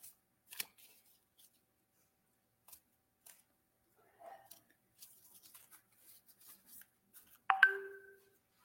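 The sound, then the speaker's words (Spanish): Tarot cards being shuffled by hand, heard as faint, scattered flicks and soft rustles spread across several seconds, ending with a brief tonal blip. “vamos a revolver las cartas.”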